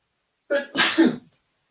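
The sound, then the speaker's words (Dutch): A single human sneeze, a short sharp intake bursting into a loud, breathy explosive release that quickly trails off, heard alone with silence before and after. “Oh, ik moet niezen.”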